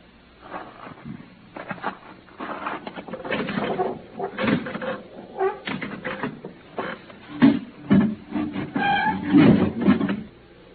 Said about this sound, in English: Now, I would like to satisfy my curiosity about that cargo. Open up my coffin.